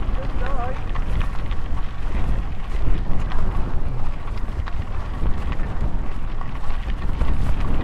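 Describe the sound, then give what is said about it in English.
Strong storm wind roars as a dense, steady rush with gusts that rise and fall throughout, buffeting the microphone. “the wind has come into play here”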